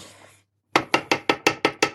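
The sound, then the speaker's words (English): Finishing signal from a Thermomix kitchen machine: a quick, even run of about seven sharp, bright pulses. A faint hum fades to a brief silence before the pulses start. “that sound of that noise means the Thermomix is done and I can take the lid off. I can make it stop because that noise drives you crazy.”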